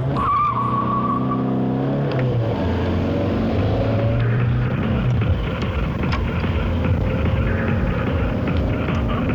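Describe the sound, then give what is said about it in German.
A car drives hard with a revving engine and squealing, skidding tires, a continuous loud racing roar whose engine pitch shifts as it accelerates. “Sag mal, Digga, wie lange fahren wir eigentlich noch nach Langenhagen?”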